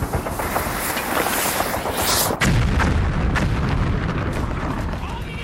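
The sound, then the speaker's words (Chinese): A hand grenade goes off in a wartime firefight against approaching enemy troops: a sharp, loud blast cuts through a dense, continuous roar of battle noise, which keeps rumbling on after the explosion. “行了，躲开！我要扔手榴弹了！”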